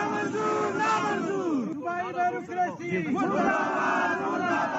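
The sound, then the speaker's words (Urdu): Protesters, heads of local government bodies in Balochistan, chant slogans together. Loud crowd voices rise and fall in rhythmic, shouted phrases. “انہوں نے اس موقع پر یہ نعرے لگائے۔”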